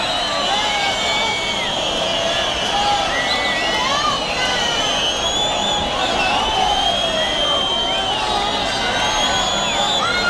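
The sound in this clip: A bullring crowd clamors for a second ear for matador Alejandro Talavante, a loud, sustained roar of voices and shouts with whistles running through it.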